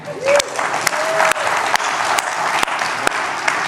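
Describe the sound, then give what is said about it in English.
An audience applauds new church members during a service: a short burst of steady clapping, with a few sharp, louder individual claps standing out above the crowd. “Let's give them a hand.”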